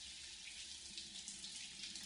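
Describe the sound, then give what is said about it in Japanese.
Hot water running steadily as it rinses foam out of hair, a continuous, even rushing hiss that holds at the same loudness throughout with no voices. “お湯が流れる。右側の髪から泡が流れて消える。”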